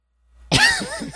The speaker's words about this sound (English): I was trying to be subtle. I stopped the sneeze, but okay.